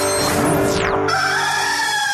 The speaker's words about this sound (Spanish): El gallo.